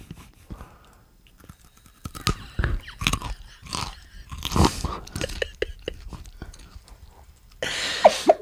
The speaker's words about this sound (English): I am now going to bite into this carrot. Notice the saliva in my mouth.